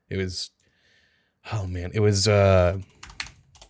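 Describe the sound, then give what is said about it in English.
Typing on a computer keyboard during an online search: a voice is heard first, followed near the end by a quick run of light, clicking keystrokes. “I'm Googling this now. I'm going to type SoundCloud.”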